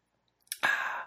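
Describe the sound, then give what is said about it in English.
A single sip from a glass of whiskey: a faint click, then a short, soft slurping draw of liquid that tapers off within about half a second. “And it just so happens that I have a glass of whiskey right here. So I'm just going to have a sip of my whiskey.”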